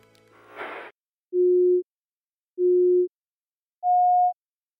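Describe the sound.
A film sync cue of three electronic beeps follows a brief burst of noise: the first two are evenly spaced at the same steady pitch, and the third is higher, each lasting about half a second with silence between.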